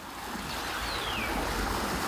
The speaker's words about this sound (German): Das könnte das Meer sein.